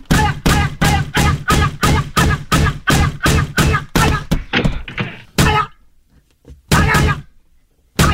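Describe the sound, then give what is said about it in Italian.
Heavy thumps and rattles of a locked door being yanked by its handle: many loud knocks in a rapid, steady rhythm, then a pause and a couple of further hard bangs. “prendi la maniglia della porta e tira!”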